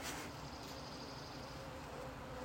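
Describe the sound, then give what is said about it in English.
Honeybees buzzing as they work burr comb in an opened hive, a steady, dense drone that holds evenly throughout with no talk over it. “But these bees are all over the burr comb,”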